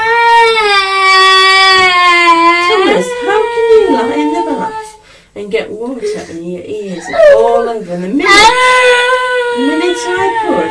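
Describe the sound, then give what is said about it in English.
A child cries loudly at a swimming pool: a high, drawn-out wail at first, then choppier sobbing mixed with talking, and another sustained wail near the end. “Clear water with a cup, you start crying.”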